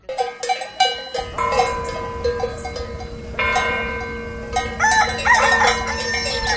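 A rooster crows in a rural village: several loud, harmonic crows stand out above a steady background of village noise and a constant low hum.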